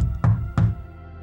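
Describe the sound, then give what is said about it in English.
Two firm knocks land on a house door, a few tenths of a second apart, as grandparents knock. Each is a dull, hollow thud, followed by quiet. “The grandparents knock,”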